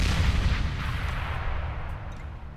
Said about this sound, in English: And, like, it explodes, and none of the shrapnel hits you.